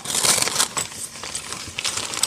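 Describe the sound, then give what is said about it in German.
Wrapping paper rips open on a gift package in several loud, crinkling, crackling bursts, with short pauses between the tears. “So, jetzt reiße ich es mal auf.”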